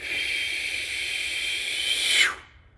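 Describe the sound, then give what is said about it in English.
A slow, controlled exhale through the mouth, as if through a straw, during a breathing exercise: a steady breathy hiss of over two seconds swells slightly, then trails off into silence. “So breathing in through the nose, hold it, and slowly breathe out through the mouth like you're breathing through a straw.”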